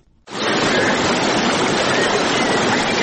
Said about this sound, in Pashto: دا د هغه بیدونکو اوبو شور دی چې د غزنی ښار په منځ کې تیریږي.